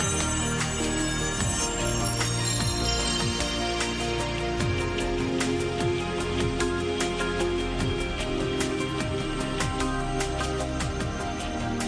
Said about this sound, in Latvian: Lūdzu, zvanu, balsosim par 45.